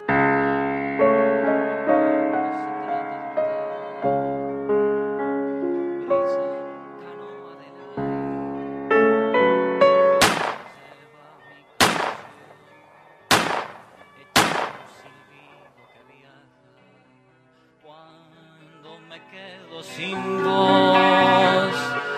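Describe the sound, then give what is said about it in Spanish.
Four sharp, loud gunshots tied to a 1914 shooting in a rented room crack one after another, roughly a second apart, set between passages of music. “Esos fueron los balazos que mataron a Delmira Agustini un 6 de julio de 1914 en una pieza de alquiler en la calle Andes y Canelones.”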